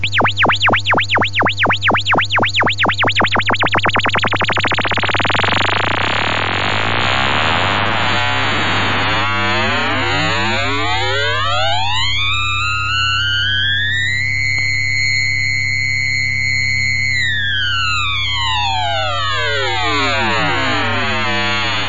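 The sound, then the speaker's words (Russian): A synthesized FM tone starts with a slow, wobbling vibrato that speeds up as the modulator rises until it merges into a loud, buzzy, metallic tone with sweeping, shifting overtones. “Один ужасно медленный сигнал меняет частоту второго. Этот эффект называется вибрато. Частота первого сигнала постепенно возрастает. Ухо уже не различает отдельных колебаний, и мы слышим результат FM-синтеза.”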